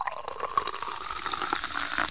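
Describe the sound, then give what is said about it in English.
Champagne poured into paper cups makes a steady, faint trickling and fizzing stream that runs unbroken throughout, with small splashy flickers on top. “How about some champagne? The glasses are still packed, so it'll have to be paper cups.”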